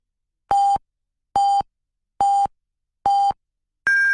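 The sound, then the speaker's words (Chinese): Chinese radio hourly time signal marking the top of the hour: four short, steady, evenly spaced beeps at one pitch, then a fifth beep at a clearly higher pitch cut off at the end, with silence between tones. “综合广播敬请对时，依家是北京时间19点正。”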